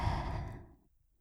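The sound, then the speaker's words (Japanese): A deep breath drawn during a guided breathing exercise, a soft breathy whoosh strongest at the start that fades smoothly to near silence within under a second, with no talking over it. “私の声に合わせて深呼吸していこうね。いいかな。はい、吸って、”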